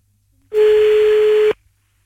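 A telephone line tone while redialing after a dropped call: one loud, steady, pure tone lasting about a second, alone, starting and stopping cleanly amid near silence.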